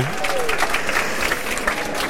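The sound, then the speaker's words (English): Audience applause welcoming Apollo 15 astronaut Al Warden at New Scientist Live: dense, steady clapping from a large crowd that holds at an even loudness throughout. “would you please give a massive New Scientist Live welcome to Apollo 15 astronaut Al Warden!”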